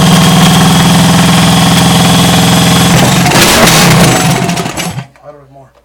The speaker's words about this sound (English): All right, a little idle adjustment. This is the fun shit, isn't it? Who else is doing this on a Wednesday night? Come on. We're going to bring the idle down just a little bit.